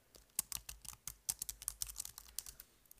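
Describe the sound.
Keys clatter on a computer keyboard as notes are typed for a doctor during a patient intake. Many light, quick clicks fall in an irregular run with brief pauses, quiet and without talk.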